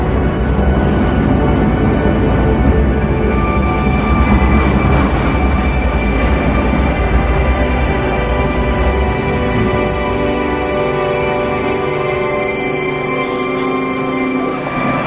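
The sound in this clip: A train pulls into a platform past escalators and comes to a stop, a loud, steady rumble and rolling noise throughout whose low rumble thins near the end as it halts.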